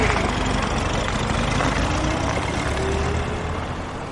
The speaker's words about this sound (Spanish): El policía arranca el vehículo y se marchan de la atenta mirada del hombre.